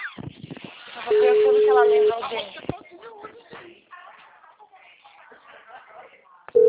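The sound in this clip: Ringback tone of a telephone call that goes unanswered: a steady, narrowband tone lasts about a second, and another begins at the very end, with people talking in between.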